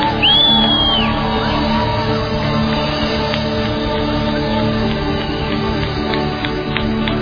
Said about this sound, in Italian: Dale un applauso grande al Re dei Re. Un applauso grande al Re dei Re. È un grido di giubilo.